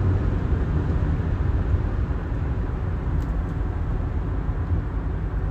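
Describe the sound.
Steady low road and engine rumble from a car driving in traffic, a constant dense drone with no talk over it.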